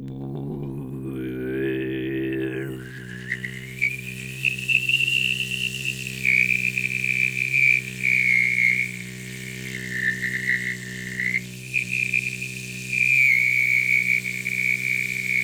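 Mongolian-style throat singing: a deep, sustained undertone drone with a bright, whistling overtone melody gliding above it. It carries on steadily for about fifteen seconds, with no talk.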